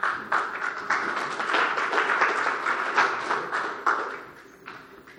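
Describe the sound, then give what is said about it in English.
A meeting audience at a recovery group gives a round of applause, steady dense clapping from many hands that carries on evenly before thinning and fading out at the end. “Can we get another round of applause? Thank Joe one more time. That was awesome.”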